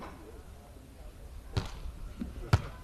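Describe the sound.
Volleyball bounced on the court before a serve in a match between Jinan teams: two distinct dull thumps about a second apart over a low background hum.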